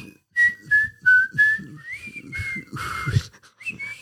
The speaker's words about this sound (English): You whistle out of the side of your mouth.